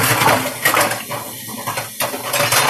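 Dishes and cutlery clink and clatter as someone rummages through a kitchen looking for a teaspoon. Many small metallic and ceramic knocks run together in a steady, busy jangle.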